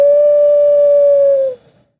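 A person imitates an eagle owl's hoot with one long, loud, whistled note held at a steady mid pitch for about a second and a half, then cut off abruptly.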